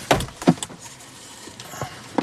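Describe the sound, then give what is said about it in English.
A door being opened inside a house: a few sharp clicks and knocks from the latch and handle, with quiet stretches between them and a final pair of clicks at the end. “See, I can still open my door.”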